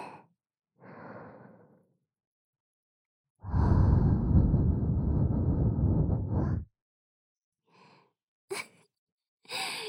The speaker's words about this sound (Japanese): ほら、お耳の中をあったかーい吐息でくすぐって、